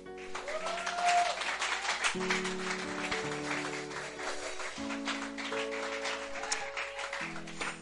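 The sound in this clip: Congregation applauding and acclaiming at a church service, a rough continuous patter of clapping over sustained low instrumental chords that shift from one to the next, with no clear talk over it.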